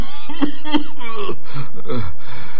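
A man coughs and clears his throat in a few rough, harsh bursts at night, with throaty voiced tones rising and falling through them. The sounds are fairly loud and close together.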